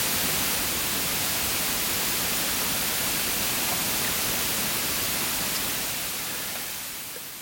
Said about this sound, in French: Ceci serait un bruit rose. Et ceci serait un bruit blanc.